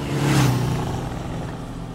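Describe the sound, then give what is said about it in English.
Motorcycles speed away with an engine roar that swells loudly at the start, then settles into a sustained droning whine that eases off slightly. “on her Batblade motorcycle and Robin on his Redbird tear across Gotham City.”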